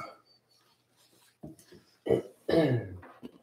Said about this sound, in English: It's gonna be fucking coughing.